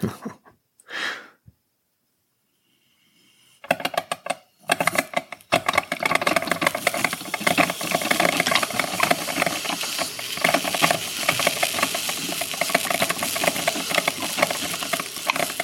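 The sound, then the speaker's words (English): A coffee maker brews a bold roast of 100% Arabica beans: a brief soft sound, a few seconds of silence, then a loud, steady hiss with rapid sputtering and gurgling that carries on to the end. “Now we sit and wait and listen to the coffee brew the best gall darn coffee you'll ever have.”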